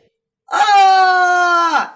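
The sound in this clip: A man calls out in a single drawn-out, loud shout that holds a steady pitch before dropping off at the end.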